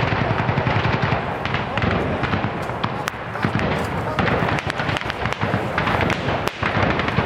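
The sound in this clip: Heavy gunfire in street fighting: a dense, loud barrage of many sharp cracks and bangs over a constant roaring din, with no break throughout.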